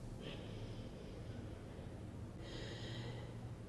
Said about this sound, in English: As long and slow and deeply as you can. And if it's available to you, start to breathe in and out through your nose.